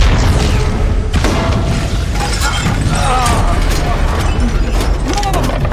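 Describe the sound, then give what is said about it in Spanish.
A detonation set off during a military assault on a ship erupts in heavy booming rumble, loud and dense throughout, with crackling, shattering bursts layered over a deep roar. “¡Detonen ya!”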